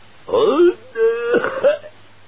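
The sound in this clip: A man's voice imitates a throat-clearing cough, a gruff, voiced 'ahem' in two drawn-out parts, loud and alone.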